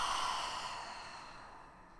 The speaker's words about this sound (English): Take a huge, deep breath in and hold it at the top. Open your mouth and exhale.